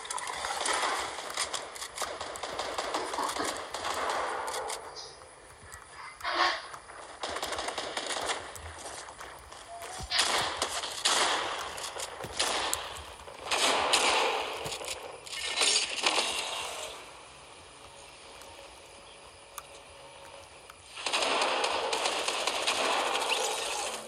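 Video game gunfire comes in repeated loud bursts of rapid automatic shots during a team firefight. The harsh clatter keeps breaking off and resuming throughout.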